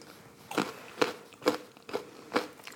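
Crunchy chewing as someone tastes a homemade fresh dill dip with sour cream: about five crisp, fairly faint bites land at a steady, evenly spaced rhythm with quiet pauses between them.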